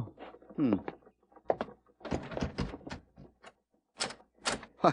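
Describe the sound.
A door is opened at the Blue Star, a frontier establishment found unexpectedly open, giving a few thunks and rattles while people talk around it.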